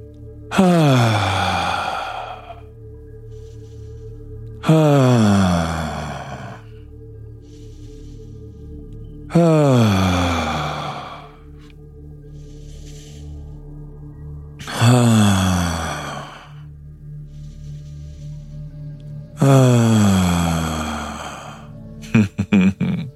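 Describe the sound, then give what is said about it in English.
Deep voiced breathing exercise in which five long, sighing exhalations, each falling in pitch, are separated by quieter pauses for inhaling. “So you can do an inhale with Nice deep inhalation. Hold it. Exhale in a... Let's do that sound again.”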